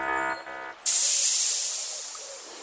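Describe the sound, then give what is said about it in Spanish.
Hatches open after an arrival with a sudden bright, forceful hiss of released air. A short tonal hum comes first, then the hiss bursts on loudly and slowly fades out. “Llegada exitosa. Abriendo compuertas.”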